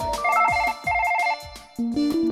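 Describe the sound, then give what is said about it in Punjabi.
A phone ringtone plays a bright electronic melody in short repeating bursts with brief gaps between them, then moves into a rising run of notes. “ਇੱਕ ਕੁੜੀ ਆ ਬਾਰ ਬਾਰ phone ਕਰਦੀ ਆ, hello ਕਹਿ ਦਿੰਦੀ ਪਰ ਅੱਗੋਂ ਗੱਲ ਨਹੀਂ ਕਰਦੀ। ਲੈ ਫੇਰ ਫੋਨ ਆ ਗਿਆ।”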